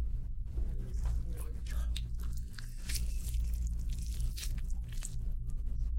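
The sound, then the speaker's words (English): A fresh orange being peeled open by hand: faint, soft tearing and squishing of the rind in irregular bursts over a low, steady hum. “Remember the oranges that Tony gave us? We finally got to try them. We're currently opening an orange.”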